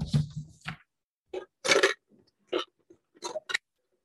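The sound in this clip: A pen or marker drawing a tree on paper makes short, scratchy strokes. The quiet scraping bursts are separated by brief pauses, in an irregular rhythm.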